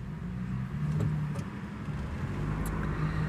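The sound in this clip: Inside a moving car, a steady low engine and road rumble holds at an even level throughout, with no talking.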